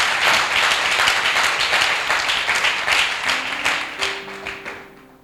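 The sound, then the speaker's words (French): A church audience claps to acclaim Jesus, many quick, rhythmic claps at a steady beat that gradually thin and fade, while a sustained low tone enters near the end. “On va acclamer Jésus pour sa vie. On va lui dire merci.”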